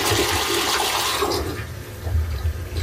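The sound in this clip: A small toddler toilet in a nursery flushes with a loud, continuous rush of water that eases briefly midway and then surges again, with no voices.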